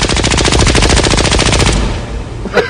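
Gunshot sound effect of rapid automatic fire, a loud, dense burst of fast repeating shots that runs for a couple of seconds and then fades out.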